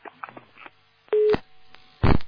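A telephone call being placed again: a few faint clicks, then one short, steady ringing tone, followed by harsh bursts of noise on the line.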